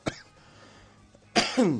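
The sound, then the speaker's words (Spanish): A few sharp, raspy coughs from a person recovering from illness, a short one at the start, then a louder pair near the end after a near-quiet gap. “Bueno, algo tenía que toser.”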